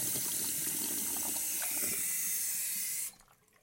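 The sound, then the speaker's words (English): Water running from a sink tap as someone drinks from it: a steady, loud rushing hiss that cuts off abruptly near the end, leaving near quiet. “I'm gonna drink from the sink real quick. I'll let you guys listen. Hold on. Can you hear that?”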